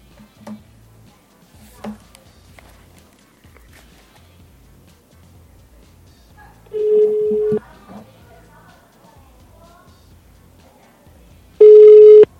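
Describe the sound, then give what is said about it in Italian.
Telephone tones as a call is redialed: two steady low-pitched tones, the first lasting under a second and the second at the very end, with faint clicks and quiet background noise before them. “Caspita, aspetta che provo a richiamarti.”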